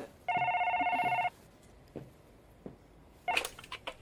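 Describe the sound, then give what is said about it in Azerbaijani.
A telephone rings in one electronic burst lasting about a second, with a steady pulsing tone. A few soft knocks and a brief higher sound follow in otherwise quiet surroundings. “Lütfən telefona cavab verin.”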